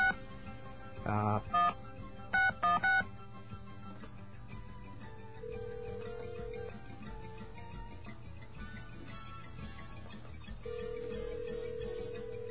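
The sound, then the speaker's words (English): Touch-tone telephone dialing, a 9 for an outside line and then a number: a few short stacked beeps in quick bursts over a steady background hum, with faint steady tones afterward. “we get our dial tone here. There it is. And we have to dial out, so we'll dial a 9 to get out. And then 976.”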